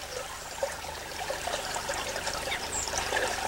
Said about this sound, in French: T'as vu, c'est bizarre, l'eau, elle bouge pas, et là, il y a du courant, là.